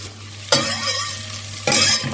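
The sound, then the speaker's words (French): Onions sizzling in melted butter in a pan: a sharp surge of bright hiss when they go in, a steady frying crackle, then a second burst of louder sizzling near the end. “j'entends le beurre qui chante là. Je vais mettre les oignons dans le beurre.”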